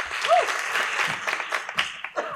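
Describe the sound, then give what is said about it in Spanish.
Audience applause at an awards ceremony, with dense, sustained clapping at an even level and a brief voice heard near the start. “A continuación les pido un aplauso para Víctor y Víctor, que van a entregar el siguiente reconocimiento.”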